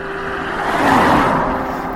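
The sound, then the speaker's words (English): A big Ford Transit van passes by. Its engine and tire noise swells smoothly to a peak about halfway through, then eases off again, with no voices over it. “A nice big white Transit. Probably pest control or the drains”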